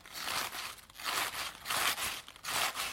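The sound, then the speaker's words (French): Fresh Swiss chard leaves crunch and crinkle in several crisp, rustling bursts, each brittle and snappy, spaced by short pauses at a fairly faint level. “Ça, c'est le bruit de la blette fraîche. Ça doit être comme ça.”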